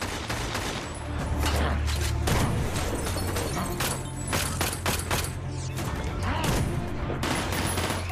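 Heavy gunfire is exchanged between police officers and bank robbers outside a bank. Many overlapping shots and rapid bursts form a dense, continuous, loud barrage.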